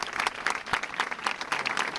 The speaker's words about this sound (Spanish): Con este aplauso, los docentes mostraban su apoyo a un compañero al que agredieron la semana pasada.